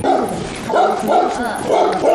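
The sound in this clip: A dog yips and barks in short repeated bursts during a New Year custom where butter is smeared on it as a blessing, its sharp cries rising over people talking nearby.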